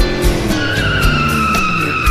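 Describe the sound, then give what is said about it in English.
A car pulls away with a loud, steady engine roar and a sustained high tire squeal running throughout, without any voices. “When they left the bar, they got in his car and they drove away.”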